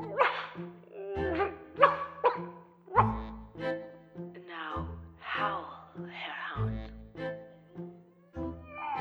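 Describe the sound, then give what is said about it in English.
Dog barking and howling in repeated loud yelps and drawn-out cries over a low, steady tonal backing. “he heard strange howling coming from within. Ow! Now, bark him out.”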